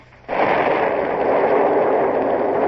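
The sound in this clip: Ship's cannons firing grapeshot as a radio drama sound effect: a sudden loud onset gives way to a sustained, dense roar that holds steady to the end.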